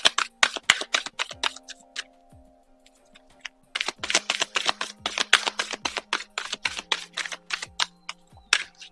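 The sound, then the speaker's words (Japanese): Oracle cards being shuffled and drawn: rapid bursts of crisp card clicks and flicks, a quieter pause partway through, then more dense shuffling over a soft steady drone. “それでは A のを選んでくださった方の、アドバイスカード、オラクルカードで引いていきましょう。”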